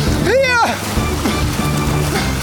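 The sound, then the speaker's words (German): A rescue boat sets off through water, churning it into a loud, steady rushing and sloshing wash that runs for the whole stretch. “Während die beiden mit dem Rettungsboot losfahren, kann sich Mike gerade noch über Wasser halten.”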